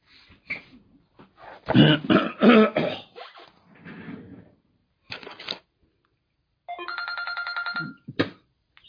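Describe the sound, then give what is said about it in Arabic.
A telephone rings during a religious lesson: one buzzy, steady electronic ringtone burst near the end, after some throat clearing and brief voice sounds. “أنا مضطر لكل اتصال أرد عليه لأنه أكيد في أسئلة فسامحوني.”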